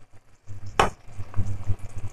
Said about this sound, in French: Donc, je mélange.